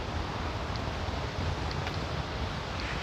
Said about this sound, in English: Okay, that's a lot of wind.